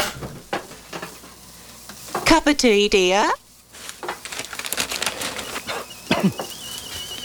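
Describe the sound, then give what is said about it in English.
An electric kettle heats water for tea with a steady crackling, sizzling hiss that carries on throughout at moderate loudness. “dear. The kettle's on. Would you like a cup of tea, love?”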